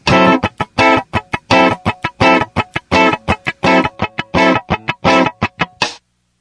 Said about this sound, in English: we're going to squeeze a D9 chord on the downbeat of each group of 16th notes. That'll sound like this.